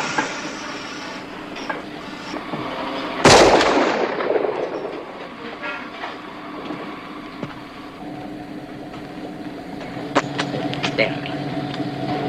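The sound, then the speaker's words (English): A gun is fired in a single loud, sharp blast that decays over about a second into a rumbling background, with a few fainter knocks afterward. “can you shoot your piece again? And shoot.”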